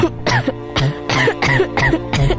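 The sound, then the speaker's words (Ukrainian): A person coughs from the thick smoke of a fire, a burning blanket among the flames. The harsh, loud coughs come in a rapid series of several fits, with no talk. “Від цієї пожежі створилося стільки диму, що Борис почав кашляти.”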